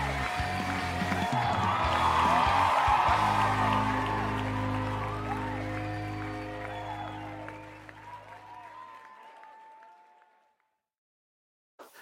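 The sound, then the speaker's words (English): Audience applause welcoming a show host: a dense, sustained wash of clapping and cheering with a few whoops, gradually dying away into silence. “Ladies and gentlemen, put your hands together and help welcome your friend and mine, Kevin White.”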